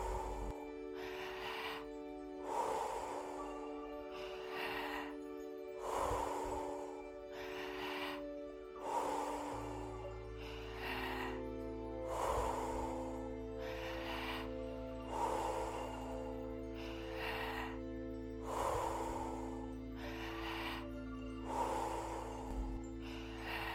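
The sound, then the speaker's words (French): Deep guided breathing, a long run of forceful inhales and exhales in a steady, rapid rhythm, each breath a broad airy rush, set over a sustained low musical drone with no talk. “Gonflez le ventre et la poitrine, relâchez.”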